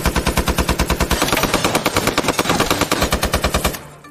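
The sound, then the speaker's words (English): A heavy machine gun fires one long, loud burst of rapid, evenly spaced shots with a fast, steady rhythm that stops abruptly near the end. “He shoots the soldier with a heavy machine gun,”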